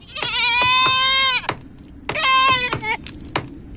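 A lamb bleats in loud, wavering, high-pitched calls, two long drawn-out bleats separated by a short pause, with a brief fainter sound near the end.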